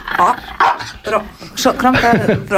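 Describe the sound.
A dog barks on a stage, giving several short, sharp barks and yips that mix with people talking.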